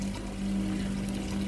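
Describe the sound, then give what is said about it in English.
A kitchen tap left running fills a sink close to overflowing, giving a steady, unbroken rush of water with a low hum underneath, moderately loud and constant. “That sink's going to overflow.”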